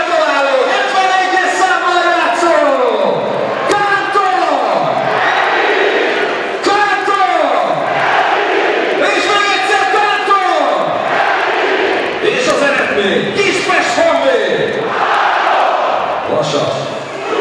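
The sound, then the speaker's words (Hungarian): A stadium public-address loudspeaker at a Honvéd football match in Kispest blares an announcer's voice in repeated, falling calls over a loud, roaring crowd celebrating a goal. “És hallhatják önök is a hangos beszélőt, hallgassák csak!”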